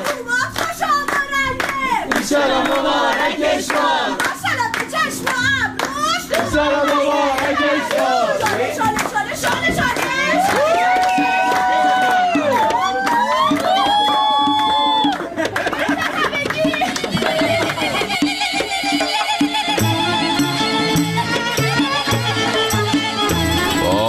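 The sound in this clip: Rhythmic audience clapping at a family celebration, loud and continuous, mixed with voices singing and chattering over the beat.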